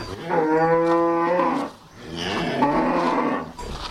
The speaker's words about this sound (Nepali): म एकैछिन गाईहरू कराएको साउन्ड इफेक्ट रेकर्ड गर्दै गर्छु।